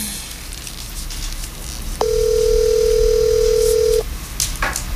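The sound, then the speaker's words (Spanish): A telephone ringback tone sounds while a call is being placed: one steady, mid-pitched tone lasting about two seconds, with low background noise before and after. “Estamos llamando, gente, estamos llamando.”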